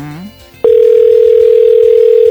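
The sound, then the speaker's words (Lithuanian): A loud, steady single-pitch telephone tone sounds as a call is placed, starting abruptly after a brief snippet of voice and holding unbroken to the end. “Žiūrėkim, kieno telefonas suskambės.”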